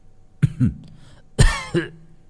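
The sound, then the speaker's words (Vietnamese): A man seated under a tree coughs, giving a few rough, throaty coughs in two short bursts with a quiet pause between them. No other voices are heard. “nghe thấy giọng Nguyệt mở mắt ho lên mấy tiếng khụ khụ”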